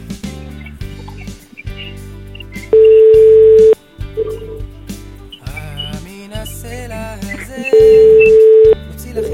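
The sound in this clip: An outgoing telephone call rings unanswered: two long, steady ring tones about five seconds apart, each lasting around a second, with other brief sounds and voices in between.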